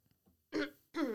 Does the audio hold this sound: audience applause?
no

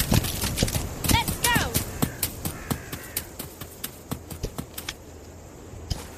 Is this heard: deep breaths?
no

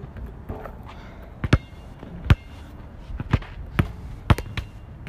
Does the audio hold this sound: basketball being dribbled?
yes

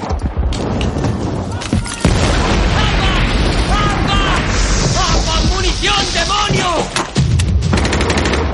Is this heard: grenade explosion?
yes

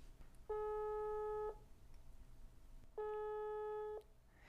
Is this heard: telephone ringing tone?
yes

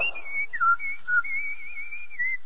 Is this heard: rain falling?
no

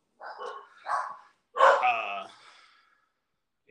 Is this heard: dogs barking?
yes

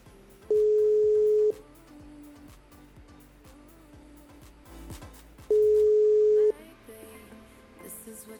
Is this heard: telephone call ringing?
yes

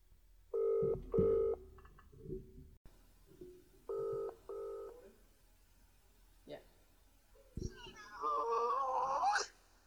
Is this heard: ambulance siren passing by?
no

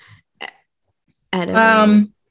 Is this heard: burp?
yes

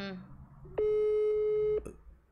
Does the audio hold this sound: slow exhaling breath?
no

